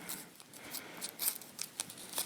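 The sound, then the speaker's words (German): Crackling and crunching of a dye tablet being crushed and ground between two sheets of paper: several short, faint, irregular crisp bursts with papery rustle in between, and no voices. “Dann lege ich diese Farbtablette mal in einen anderen Messbecher. Mache sie hier noch klein zwischen 2 Blättern Papier. Soll man sie ein bisschen zerreiben,”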